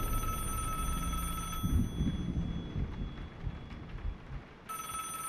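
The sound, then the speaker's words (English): A telephone ringing: a bright, sustained ring sounds, breaks off for a few seconds, then starts again, over a low rumbling background. “Valerie quickly makes her way down the stairs towards the phone.”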